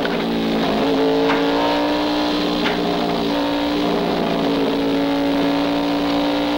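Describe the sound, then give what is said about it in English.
A loud, buzzy engine drone comes from an early open-cockpit car with manual spark control as it accelerates. The tone stays nearly level and continuous throughout. “Frankenstein accelerates as Annie reaches into the engine compartment. Then he turns onto a side road.”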